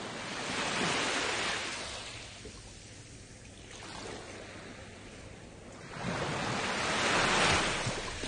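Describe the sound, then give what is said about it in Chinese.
Ocean waves roll in as broad, hissing surf that swells, eases off, then surges again more strongly, with some wind noise mixed in and no voices. “听到啲海浪声。”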